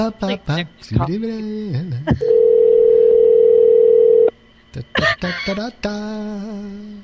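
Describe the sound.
A steady, mid-pitched telephone dial tone sounds alone for about two seconds while a caller is being added back into a call, with people talking just before and after it.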